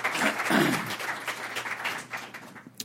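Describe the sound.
An audience applauds to welcome a speaker at an auditorium talk, a dense burst of clapping that gradually thins and fades near the end.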